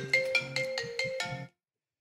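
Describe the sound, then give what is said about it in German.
A phone ringtone for an incoming call plays as a short run of bright, melodic electronic notes, then cuts off into silence. “Super. Jetzt ruft die Julia an.”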